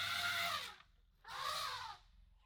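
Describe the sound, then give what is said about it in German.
A mother elephant calls for her lost calf in two loud, harsh, trumpeting bursts separated by a short pause. “Und jetzt ruft auch noch eine Elefantenmutter nach ihrem Jungen, das sie aus den Augen verloren hat.”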